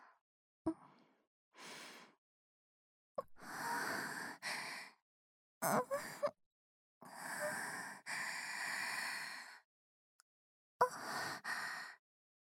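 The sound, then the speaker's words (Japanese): Deep breaths drawn in and let out: a series of breathy, hissing inhales and exhales separated by short silences, some long and steady, others short and abrupt. “深呼吸しちゃいました。”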